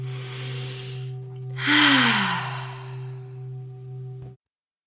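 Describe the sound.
A single deep breath drawn in: a brief, breathy rush of air lasting under a second, rising out of a steady low electrical hum and easing off into softer breath noise.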